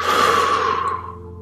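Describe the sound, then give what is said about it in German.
A deep breath taken during a guided relaxation exercise: a long, airy, breathy exhale that starts fairly loud and fades over about a second and a half, with no talk. “Und schließ die Augen und atme mal tief durch die Nase ein und durch den Mund wieder aus.”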